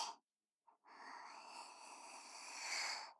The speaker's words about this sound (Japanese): 君と一緒に深呼吸してるだけだよ。ほら吸って、